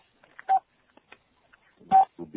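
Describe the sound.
Two short, clear telephone keypad beeps about a second and a half apart, steady mid-pitched tones, separated by faint scattered noises.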